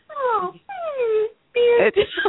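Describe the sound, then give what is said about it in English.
A person whimpering in a few short, high, whiny bursts, the first two sliding downward in pitch and the last louder and wavering. “Did you just whimper at me? I did. She just whimpered at me.”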